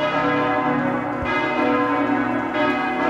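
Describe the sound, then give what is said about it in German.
Wedding church bells ring in a dense, sustained wash of overlapping metallic tones. Fresh strikes renew the ringing a couple of times, with no voices. “Bei den Hochzeitsglocken, das ist, ne?”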